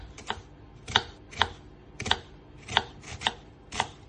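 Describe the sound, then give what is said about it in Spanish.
Knife chopping an onion, a steady series of crisp, sharp strokes about every half second, with lighter taps between them and no voices. “Cortamos la cebolla.”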